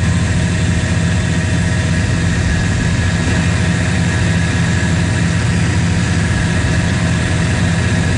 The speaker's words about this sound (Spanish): Escuchemos el audio ambiente de las turbinas de este avión.